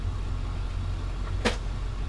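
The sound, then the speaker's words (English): A parked vehicle's engine runs with a steady low hum throughout, broken once by a short, sharp click. “The engines are running, as you can tell.”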